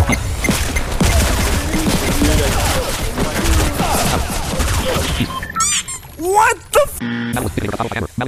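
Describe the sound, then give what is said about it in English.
AK rifle gunfire in a video game: a dense, rapid run of loud shots through the first five seconds, then sparser bangs and chirpy squeaks, with voices talking over the action. “Finally got my hands on the AK.”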